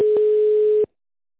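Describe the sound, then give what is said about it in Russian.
A telephone call's connecting tone: one steady, mid-pitched beep holds for under a second with faint clicks at its start and end, then cuts to silence. “Мы не получили действительный ответ. Идет соединение.”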